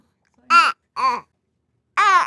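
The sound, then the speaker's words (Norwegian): A three-month-old baby boy babbles in three short, soft cooing vocalizations separated by silences, with a longer gap before the last one. “Og han som lager disse veldig koselige babylydene”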